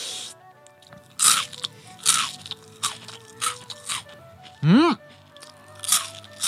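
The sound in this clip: Crisp crunching bites as someone eats spiny lobster stir-fried in a sweet, spicy chili sauce. Several short, separate crunches come at uneven intervals over a quiet background.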